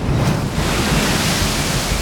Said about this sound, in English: Another splash of water curled up from the sea, splattering Amanohoki's sandals.